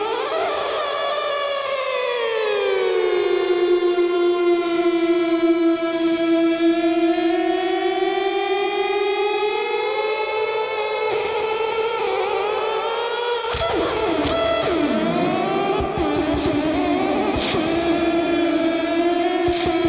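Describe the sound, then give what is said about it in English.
Speebtone Jerk-U-Later fuzz pedal self-oscillating into a loud, sustained, siren-like tone as the volume knob is turned. The pitch slides down and holds, then rises and warbles erratically toward the end. No talking. “If I just turn the pedal on, turn my volume up a little bit, we hear this. Pedal's oscillating, and I'm adjusting my volume knob and changing the pitch.”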